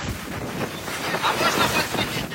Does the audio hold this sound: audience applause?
no